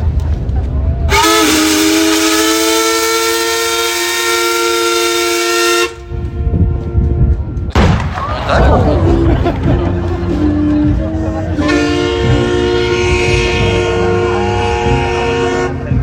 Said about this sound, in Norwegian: Vi vil straks fyre av en salut til ære for Skiblander som fyller 170 år I dag.